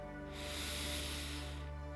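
A deep breath drawn in through the nose, heard as a soft, steady hiss that swells and then fades over about a second and a half, quiet and alone.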